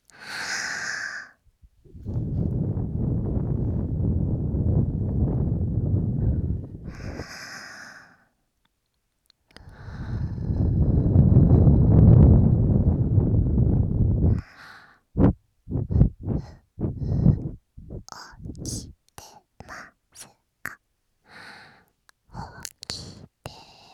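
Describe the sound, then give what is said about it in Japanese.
Someone blowing air out in two long, steady breaths, each several seconds of soft breathy rushing, followed by many short, sharp puffs and clicks in quick succession. “もうちょっと吹いてみたらわかるかな。 やってみよう。”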